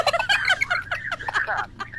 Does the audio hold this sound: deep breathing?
no